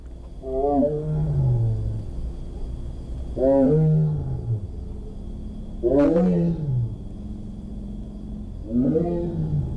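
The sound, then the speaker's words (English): Tigers vocalize at the Milwaukee County Zoo: four loud, throaty calls spaced a few seconds apart, each a deep rumbling roar-like moan with strong harmonics that slides downward in pitch, with no talking. “Wisconsin's Milwaukee County Zoo is the only Midwestern zoo to be working with the Pruston Project to record the voices of tigers, and those new recordings are going to sound something like this.”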